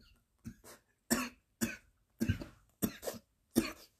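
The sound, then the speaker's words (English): Short, rough coughs from a man with an irritable throat come in a string of quick bursts separated by brief silences, some doubled, moderately loud and alone without talk. “Yeah, excuse me. I got an irritable throat.”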